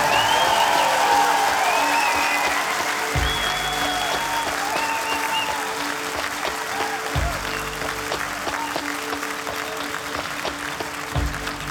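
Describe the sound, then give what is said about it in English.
Sustained applause from a concert audience fills the whole stretch as a dense, even roar of many hands, easing only slightly in loudness toward the end. “extra applause for the man of the magical machine, Courtney Mitra.”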